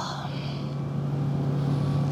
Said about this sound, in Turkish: İşte gidiyorlar. Güle güle tekne. Güle güle insanlar.